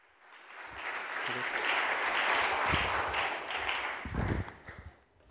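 Applause from a church audience greeting a guest pastor of an Oakland house church network, swelling quickly into a dense patter, holding, then thinning into scattered claps at the end.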